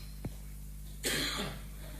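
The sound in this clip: A single short, harsh cough bursts out alone over a steady low hum, preceded by a tiny click.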